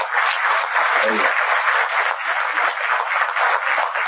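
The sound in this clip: An audience at a web and mobile festival in Shiraz claps for the organisers in steady, dense applause that stays at an even level throughout, with a voice heard briefly over it.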